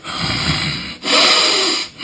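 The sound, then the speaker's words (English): A voice imitates heavy breathing down someone's neck while they play chess: long, loud, breathy rushes of air, one after another with only brief pauses between them. “I always think that I'm like hovering and like breathing down their neck.”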